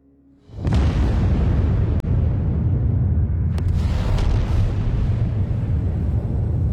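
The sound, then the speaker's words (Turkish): An atomic bomb explosion: a sudden deep boom that swells into a loud, sustained, roaring rumble that continues without letting up. “Hiroşima ve Nagasaki'ye atılan bombalar ve bunların yıkıcı etkileri 2. Dünya Savaşı'na son verdi.”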